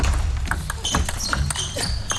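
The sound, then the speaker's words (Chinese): Table tennis ball bouncing as Wang Chuqin serves in a professional match, second game tied at 10-10; a few crisp, light clicks under steady talk and background noise. “不着急，王楚钦发球，第二局10-10”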